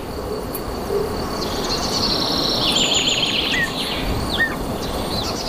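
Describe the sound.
High, thin chirps and short whistled calls from oriole chicks begging as they are fed in a lush forest during the breeding season, heard over a steady dense buzz of insects.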